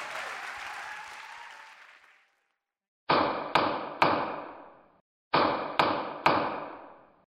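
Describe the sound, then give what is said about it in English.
A judge's gavel striking, two sets of three sharp, ringing knocks separated by a short pause, after a wash of noise that fades out at the start. “This is the sound of a gavel. Judge Sean Hodgman rules.”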